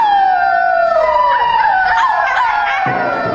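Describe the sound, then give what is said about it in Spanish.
Wolves howl in long, falling wails, several voices overlapping and sliding downward in pitch, loud and continuous throughout. “está lleno de lobos”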